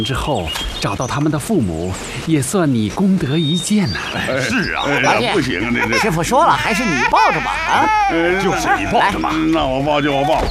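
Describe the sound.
A baby cries in repeated wails whose pitch rises and falls, growing more insistent toward the end, mixed with voices talking.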